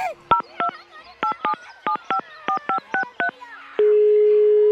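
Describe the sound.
A telephone number is dialed to call someone back: ten short touch-tone beeps in an uneven rhythm, then a long steady tone begins and holds to the end.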